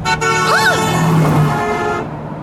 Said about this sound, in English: Hey, look out for that car!